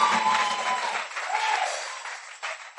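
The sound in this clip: An audience applauds during a church service: dense, continuous clapping with raised voices mixed in, loud throughout and thinning slightly toward the end.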